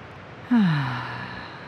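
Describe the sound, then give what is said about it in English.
A deep breath taken during a guided relaxation exercise: one long, breathy sound that starts abruptly with a sighing, falling voiced tone and then fades slowly, with no talk. “just close your eyes and take a deep breath with me.”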